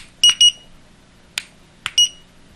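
A timer alarm sounds short, high-pitched electronic beeps: two quick beeps, then after a pause two sharp clicks and a third beep.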